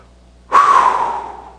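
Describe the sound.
A single sharp breath drawn in, airy with a whistling tone, starting abruptly and fading over about a second, heard alone without talk.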